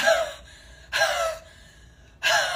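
Forceful breaths pushed out from the diaphragm during breathing practice: three loud, rushing exhales about a second apart, with quieter breathing between them.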